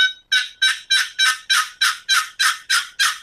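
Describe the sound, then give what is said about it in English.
A hen turkey box call is played as a steady run of about ten sharp, raspy yelps, evenly spaced and equally loud, each with a crisp attack that fades quickly, with no voices. “Here's the real hen box call”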